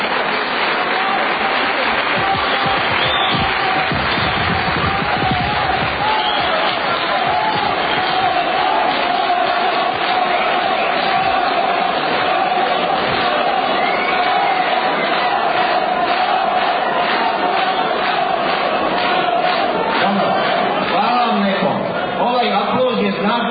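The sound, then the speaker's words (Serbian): Applause fills a hall at a political party assembly: a dense, steady clatter of many hands clapping that runs unbroken for the whole stretch, with crowd voices mixed into the noise. “Kako vidim, molim vas, ovdje aplauz, ovaj aplauz.”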